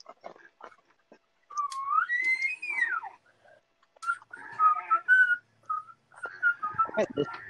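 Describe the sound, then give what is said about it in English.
A person whistles a wavering tune, sliding up and then down before short repeated notes. It is fairly faint, with scattered clicks and bits of voice between phrases. “Are you whistling?”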